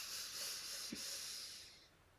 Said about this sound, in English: Inhale completely through the nose.